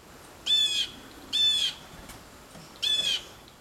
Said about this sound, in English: they remember the alarm calls of other bird species. So if a robin heard this from a blue jay,